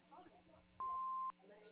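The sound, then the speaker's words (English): An answering machine sounds a single steady beep about half a second long at a fixed mid-high pitch to mark the start of a message, with a voice speaking before and after it. “No one's available to come to the phone right now, but if you leave a message after the tone, we'll return your call”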